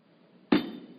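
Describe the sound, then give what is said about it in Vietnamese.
A hand slaps a wooden table once, giving a single sharp, solid knock with a short decaying ring, alone with no other sound. “Thầy đập cái bàn đó là ai nghe hết phải không?”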